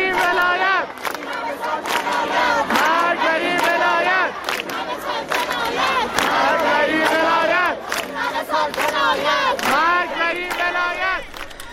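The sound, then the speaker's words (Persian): A large crowd chants a protest slogan in unison at Isfahan University of Technology, with loud, rhythmic shouted phrases repeated over and over and brief pauses between them. “صدای یکی از شعارها رو در دانشگاه صنعتی اصفهان میشنویم.”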